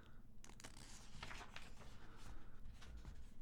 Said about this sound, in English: Let's get some page turning ASMR here.